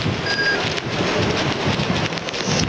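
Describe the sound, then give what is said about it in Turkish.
Heavy rain and storm at Okmeydanı: a dense, steady roar of pouring rain that stays loud and even throughout, with no voices. “burada hem yağış hem de fırtına oldukça etkili bir şekilde devam ediyor.”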